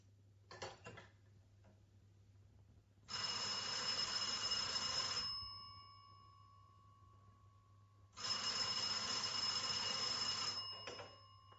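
An old telephone bell rings in two long, loud, shrill bursts separated by a few seconds of silence, after a brief short jangle at the start. No voices are heard.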